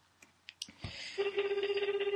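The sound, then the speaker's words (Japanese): Ringback tone on an outgoing telephone call: a few soft clicks and a thump, then a steady, rapidly pulsing warble of even pitch that continues to the end. “電話やったら出ていただけると思うので、よいしょ、出るかな？鳴ってるかな？あ、鳴りましたね。”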